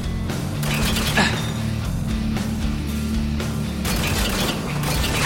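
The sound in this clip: Clicking, ratcheting mechanical clatter of a gun being reloaded in a video game, with a few sharp metallic clicks and clanks over a steady low hum.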